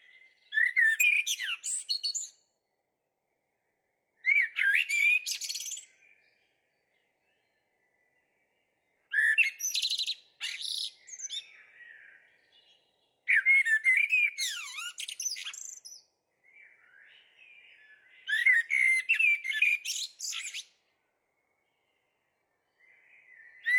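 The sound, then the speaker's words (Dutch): Common blackbird song: a series of fluting, warbled whistled phrases, each lasting a couple of seconds and separated by short silent pauses, heard alone with no voices. “En u weet het misschien nog wel, op nummer 1 eindigde de merel.”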